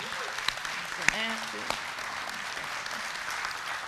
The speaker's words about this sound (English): It's a beautiful pastoral staff that has so served faithfully with us for decades upon decades. I think we ought to give them a big hand.